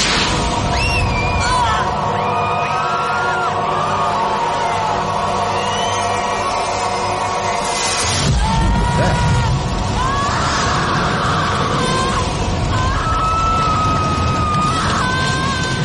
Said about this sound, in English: Catches fire from the initial blast. Shockwave hits through Los Angeles, wherever the hell this is.